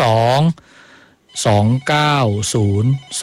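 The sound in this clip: Telephone ringing with an incoming call: a loud, harmonically rich ring with a slightly gliding pitch, repeating in several bursts separated by short gaps.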